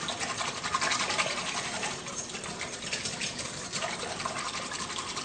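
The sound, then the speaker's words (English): Milk is being whisked into a packaged mix to thicken it, giving a faint, steady, rapid scraping and swishing that runs throughout without talk. “I'm gonna go ahead and add the milk. And I'm just gonna whisk that up to make it nice and thick.”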